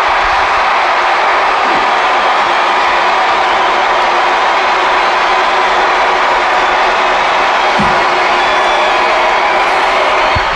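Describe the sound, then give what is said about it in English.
A packed Mayo football crowd roars in a loud, unbroken wall of cheering that holds steady at high volume throughout. “I really hope that noise is coming out across the airwaves, because it's louder than Croke Park yesterday.”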